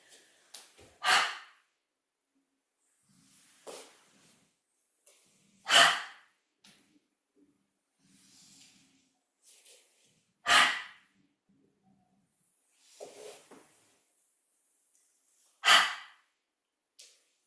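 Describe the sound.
Deep breathing during a relaxation exercise: slow breaths in and out, with loud, airy exhalations roughly every five seconds and softer breaths between, with no talking.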